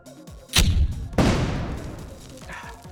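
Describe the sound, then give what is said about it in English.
Grenade launcher firing in a Shadowrun tabletop game scene: two heavy booming blasts about half a second apart, the second trailing into a long rumbling decay. “Can I roll reaction to pull the trigger one last time on the grenade launcher as I get grabbed? Yes, I will allow it. 22. You can pull the trigger one last time.”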